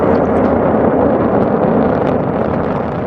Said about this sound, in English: The Falcon 9 rocket taking off from Cape Canaveral.